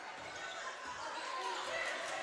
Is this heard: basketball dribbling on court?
yes